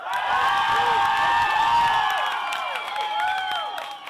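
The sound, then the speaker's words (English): A crowd cheers and applauds in a show-of-hands style vote between Italian and German, with loud whoops and shouts over steady clapping, strongest at first and easing slightly toward the end. “by a show of applause for Italian. For German.”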